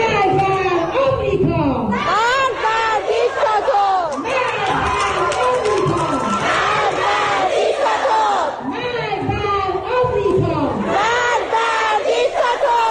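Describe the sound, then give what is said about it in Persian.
Iranian schoolgirls chant protest slogans together, such as 'Woman, Life, Freedom', as they head home from school. The many voices are loud and continuous, with rhythmic rising and falling phrases and shouting that carries on throughout. “بله، این صدای دهه 80 های ماست که بلدن شعارهای خودشونو بدن. به خصوص یکی از شعارهای محبوبشون همین شعار زن زندگی آزادیه که موقع برگشتن از مدرسه دست جمعی میخونن و میرن.”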